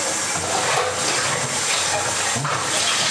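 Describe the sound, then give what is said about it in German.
Running water as a cup is rinsed in a kitchen, a steady, full rushing hiss that holds at an even level throughout, with faint small knocks underneath and no talking. “werde meine Tasse abspülen, sodass sie noch ein bisschen Atmosphäre mitkriegt”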